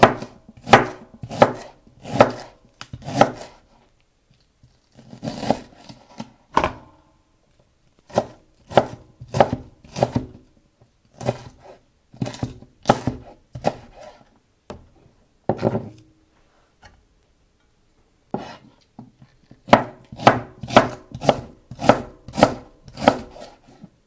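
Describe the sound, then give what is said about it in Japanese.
Knife chopping myoga and green onion for miso soup in a kitchen: bursts of rapid, crisp, evenly spaced taps separated by short pauses, with no voices. “切ります”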